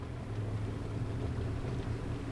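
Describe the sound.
Boat engine droning as the boat motors through increasingly rough water on a bay in Terrebonne Parish, Louisiana; a steady, even low hum with a faint broad wash over it, no voices.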